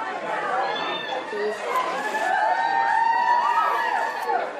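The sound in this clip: A crowd welcomes former president Bill Clinton at a polling station near the family home in Chappaqua, with dense overlapping chatter and shouting voices that stay loud and steady throughout.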